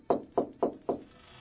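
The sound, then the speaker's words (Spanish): Knocking on a door: four firm, evenly spaced raps in quick succession, each one sharp and moderately loud, followed by quiet. “¡Abran ya la puerta, por favor!”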